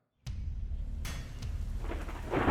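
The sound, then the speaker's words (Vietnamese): Heavy rain pours down with thunder: a sharp crack opens the sound and a second one strikes about a second later, over steady low rumbling and rain hiss that swells toward the end, all fairly faint. “Mưa và sấm sét bắt đầu trút xuống ào ào.”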